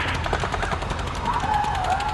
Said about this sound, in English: Automatic fire! Automatic fire!